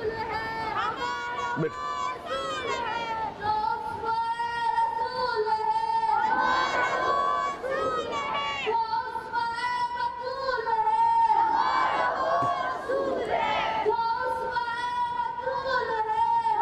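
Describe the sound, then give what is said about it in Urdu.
A crowd chants slogans during an Urdu-language religious talk, voices rising together in repeated sustained phrases that swell and fade in several waves, with crowd noise beneath. “کافی ہے بیٹا, بیٹا گفتگو میں نعرہ نہ لگائیں”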